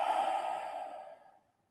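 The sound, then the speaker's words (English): A slow, deep breath out during a guided meditation: one long, airy exhale that is steady at first, then tapers away into silence. “just sit in a relaxed posture and take a deep breath in and then out.”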